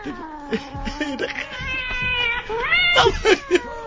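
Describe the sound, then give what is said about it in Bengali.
A cat meowing in drawn-out, wavering cries, several calls in a row, loud and strained, with a sharper rising call near the end. “বিড়াল ডাকলে ভয় পাও?”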